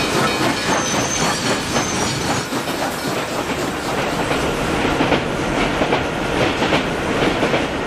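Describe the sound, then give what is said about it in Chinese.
Fast-moving train rolling on rails, a loud steady rumble and hiss with a rapid clickety-clack of wheels over rail joints running throughout, with no voices. “火车开得真快啊，很快就会到沈阳了。”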